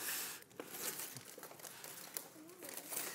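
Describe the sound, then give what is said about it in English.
Wrapping paper crinkles and tears as gifts are opened on a stage, a continuous dense rustling and ripping with no clear pauses throughout. “Y'all really want to see what's in these gifts? Okay, go for it. Let's see it. Let's tear, tear into it. By the way, I didn't wrap these, so if it's hard, it's not my fault, all right?”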